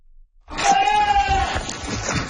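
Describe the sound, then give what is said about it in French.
A goat bleats at a farm refuge for abandoned goats: one loud, drawn-out, wavering cry lasting about a second within a rough, noisy burst of animal sound. “Ces chèvres y trouvent ainsi refuge, le temps de recevoir les soins nécessaires et pour certaines, de trouver une nouvelle famille.”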